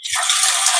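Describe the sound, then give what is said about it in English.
Tap water pours into a pot, a steady, bright, hissing gush that starts abruptly and holds level for under a second. “So I am now filling up the pot with water.”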